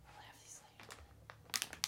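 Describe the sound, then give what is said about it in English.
A crinkly chip bag is handled close to a microphone, giving a few sharp, crackling bursts near the end. The sounds are faint overall, with soft voices nearby. “You should put the crinkly bag as close to the microphone as possible. ASMR break.”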